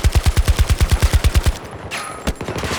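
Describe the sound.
Rapid gunfire from a gun in a video game: a steady burst of about a dozen quick, loud, evenly spaced shots, then a short lull and a few more scattered shots.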